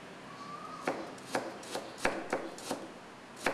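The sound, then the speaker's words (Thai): Knife chopping food thinly on a cutting board: about seven sharp, clean taps at an uneven, steady pace, with quiet pauses between strokes and no talk. “ลอกเอาเนี่ยออกนะครับแค่นี้เองนะครับแล้วก็หั่นนะฮะแล้วเราก็ซอยบางๆนะครับ”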